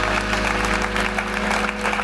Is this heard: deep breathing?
no